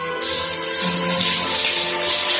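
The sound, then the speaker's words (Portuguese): Water gushes from a shower tap as it is turned on, starting abruptly and then running in a loud, steady stream. “Eu vou ligar essa torneira, eu vou virar essa torneira.”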